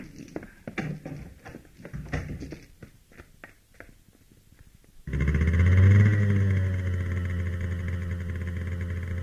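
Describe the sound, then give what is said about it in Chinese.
A motorcycle engine at night, with a few sharp clicks first, then the engine starts abruptly into a loud, steady drone with a brief rise in pitch before it settles and holds. “当刘金骑着摩托车在黑夜中消失时”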